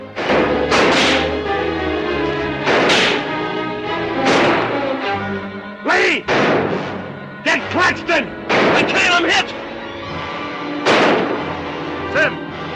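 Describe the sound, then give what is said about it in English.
Gunfire rings out in a shootout between a sheriff's men and their opponents, with many loud, sharp gunshots in irregular bursts, some fired in quick pairs, and voices heard speaking between the shots. “Barlow is already crouching behind a thick wooden beam and exchanges fire with Lee.”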